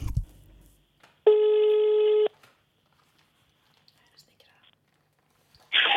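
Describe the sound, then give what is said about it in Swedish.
Ringback tone of a telephone call being placed, a steady electronic tone lasting about a second, then a long silence before a second tone begins right at the end. “Och honom ska jag nu ringa.”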